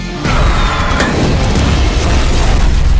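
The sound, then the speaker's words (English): An explosion from a grenade tied to a Russian tank shell erupts suddenly into a loud, deep, sustained rumbling roar that holds steady without any voices. “It's a grenade I tied to a Russian tank shell. How many people does this blow up?”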